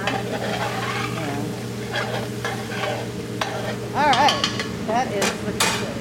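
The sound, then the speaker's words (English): Vegetables and seasonings simmering in a pot for a vegetarian main dish while being stirred: a steady sizzling bed under repeated scraping stirs, a few utensil clinks and some brief squeaky scrapes toward the end. “With the vegetables and seasonings simmering”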